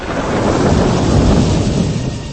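Thunder rumbles with rain on a stormy night in a Malayalam film scene, a loud, steady wash of noise that holds evenly without distinct separate cracks.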